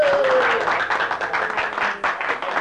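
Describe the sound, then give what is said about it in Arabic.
An audience applauds, fairly loud and dense clapping with an uneven, fluttering texture and a brief voice at the very start. “كفى كفى تصفيق أيها السادة.”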